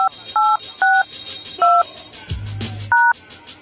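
DTMF tones from a telephone keypad dial a conference call number. Five short, clear two-tone beeps sound at uneven intervals, with a brief low buzz between the last two.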